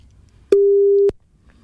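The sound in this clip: A telephone ringback tone on an outgoing call: one steady, mid-pitched beep lasting about half a second, heard alone with a quiet background before and after.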